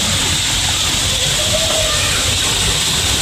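Water boiling on a briquette stove, a loud, continuous broad hiss with a rough, bubbling rumble underneath, unchanging throughout.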